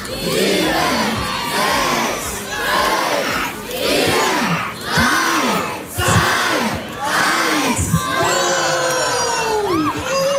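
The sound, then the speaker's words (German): Students shout and cheer in the schoolyard of a Gymnasium as a balloon carrying equipment is launched. Loud young voices swell in rhythmic bursts about once a second, with high whoops and yells riding over the crowd. “Und du hörst, der Jubel ist groß hier auf dem Schulhof des Grashof-Gymnasiums.”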